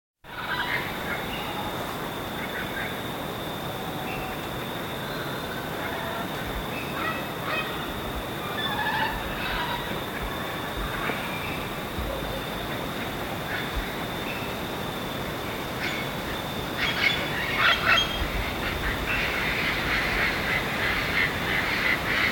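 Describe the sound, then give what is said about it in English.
Distant parrots calling in a valley, faint scattered squawks over a steady hiss of background noise, growing a little busier toward the end. “More vocalizations of distant parrots.”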